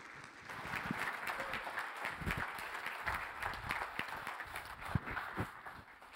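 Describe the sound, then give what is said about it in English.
Applause from an audience greeting a preacher as he comes to preach, a faint, steady patter of many hands with no voices over it. “I heard you gave Greg a nice ovation.”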